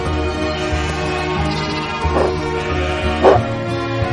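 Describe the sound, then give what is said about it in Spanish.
A dog herding a panicked flock of sheep on a hillside gives two short, sharp barks, well spaced, over a steady humming background. “Un rebaño de ovejas huye despavorido. El perro las dirige.”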